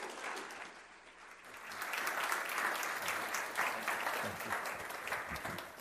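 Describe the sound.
A church audience applauds to welcome a guest speaker and his wife. The clapping is faint but sustained and grows slightly fuller partway through.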